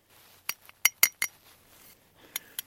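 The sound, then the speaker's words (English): A serving spoon clinks against a small metal flask as snow is scooped into it. Several sharp, bright metallic clinks come in an uneven cluster, followed by a short pause and two lighter taps, with no voices. “she has a small metal flask and she's filling it with snow with a serving spoon.”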